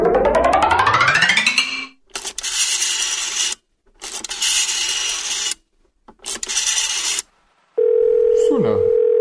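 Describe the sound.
Telephone dialing and dial tone: rising sweeping tones, then three bursts of harsh, raspy noise with short silences between, ending in a steady dial tone.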